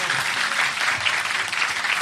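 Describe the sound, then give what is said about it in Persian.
Hands clap steadily and loudly during a devotional celebration song, a dense, continuous patter of many claps sustained throughout. “بزن کف تو دیگه، بگی بالا دست تو یا علی.”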